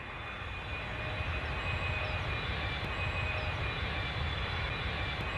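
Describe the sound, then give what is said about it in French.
An airplane taking off: a steady, broad jet-engine roar with deep rumbling underneath, continuous and unbroken throughout. “Attachez vos ceintures. Décollage, vous êtes dans Écho des îles.”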